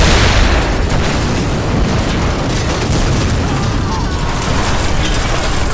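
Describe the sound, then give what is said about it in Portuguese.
A powder magazine inside a fortress explodes all at once after a thrown torch ignites it. A loud, deep, roaring blast of dense noise holds steady and heavy across the whole stretch. “A precisão do arremesso tamanha que todo o paiol explode ao mesmo tempo.”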